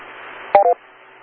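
Two quick telephone keypad dialing tones beep back to back as an amateur radio operator places a phone call. The tones are clear and brief against a faint steady hiss.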